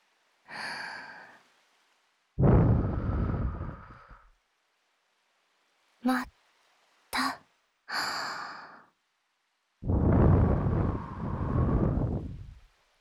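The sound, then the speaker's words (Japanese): Soft blowing of air straight into a microphone, several breathy gusts separated by silence, some long and drawn out, two very short puffs in the middle. “何するかは分かるよね。ふうするよ。”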